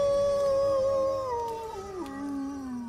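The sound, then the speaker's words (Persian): A wolf howls in one long, sustained, tonal cry with clear harmonics. It holds fairly level, then slides down in pitch toward the end and trails off, heard alone. “گرگ زوزه میکشید.”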